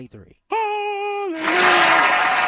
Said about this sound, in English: ladies and gentlemen, get the round of applause ready